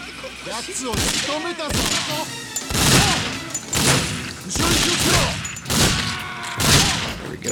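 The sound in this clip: Automatic gunfire in a video game rings out in a string of sharp, loud bursts with uneven spacing, mixed with voices talking throughout.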